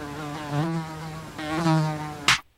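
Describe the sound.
A mosquito buzzes with a thin, high whine that swells twice in loudness. It ends in a brief sharp burst before cutting to silence.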